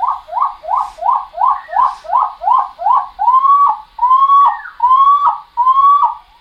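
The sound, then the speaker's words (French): A skylark's song is played slowed down on a tape recorder at 9.5 speed. A quick run of short, slurred whistles repeats evenly, followed by four longer, louder rising whistled notes separated by brief gaps. “on va l'écouter encore ralenti une fois en 9.5 sur l'autre magnétophone à côté. L'alouette des champs, c'est celle qui chante”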